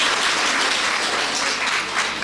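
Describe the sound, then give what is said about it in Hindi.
Applause from an audience of women at a Hindi spiritual discourse, clapping at the preacher's urging. The dense, steady wash of many hands holds at an even, fairly loud level throughout, with no voices over it. “ताली बजा दो सब, ताली बजाओ,”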